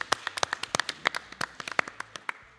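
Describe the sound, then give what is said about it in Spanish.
Applause from an audience: many sharp, separate hand claps in an uneven, fairly quick patter, crisp and moderately loud, with no voices. “Un aplauso para Alejo, que está organizando todo esto.”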